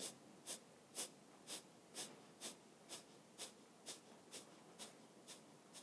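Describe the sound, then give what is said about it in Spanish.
Forceful, rhythmic exhalations through the nose, driven from the navel in a breathing exercise: many short, sharp, breathy puffs repeat at an even, fast pace of about two per second, faint and with no talk. “va con fuerza hacia adentro para exhalar con fuerza por la nariz. La inhalación se da naturalmente. El ritmo es más o menos este.”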